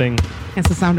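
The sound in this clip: Two basketball bounces land as dull, low thumps about half a second apart, heard under a voice that talks throughout.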